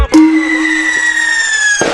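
A firecracker goes off with a sharp burst, followed by a loud, sustained whistling tone that sinks slightly in pitch for nearly two seconds before a second burst cuts it off.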